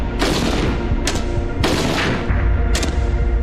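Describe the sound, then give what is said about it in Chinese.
Type 56 submachine gun firing single shots at beer bottles 100 metres away: a few sharp, loud cracks spaced irregularly over a constant rumbling background. “100米的距离射击啤酒瓶，五六式冲锋枪交出了5发4中的不俗成绩。”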